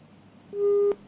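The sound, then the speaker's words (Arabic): A telephone busy tone after a call is cut off: one steady, mid-pitched beep lasting under half a second on a thin, narrow-band phone line, with quiet line hiss before and after. “انقطع الاتصال مع حمود.”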